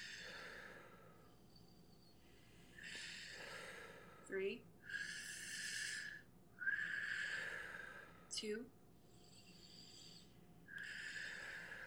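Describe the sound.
Forceful breaths pushed through the nose during a yoga breathing exercise: a series of faint, breathy rushes with a couple of sharp, short snorts among them, spaced unevenly over several seconds.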